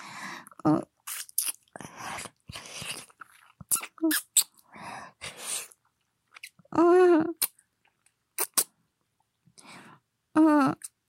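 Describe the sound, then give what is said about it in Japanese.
Close-up ASMR mouth and lip sounds made without hands or fingers: a series of wet smacks, clicks and crunchy bursts separated by short silences. “いつもね、リップ音を出すときに使っている手や指を減らしていきたいと思います。”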